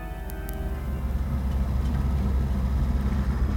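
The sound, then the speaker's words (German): A taxi driving along with its car engine running, a steady low rumble and drone that holds evenly throughout, with no voices. “Wir hätten nicht mit dem Taxi nach Hause zu fahren brauchen”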